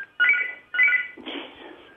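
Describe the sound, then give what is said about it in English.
An electronic telephone rings quietly with two short, warbling high tone bursts followed by a longer, buzzier tone. “excuse me, there's a phone ringing. I can't. I know. You can't turn it off.”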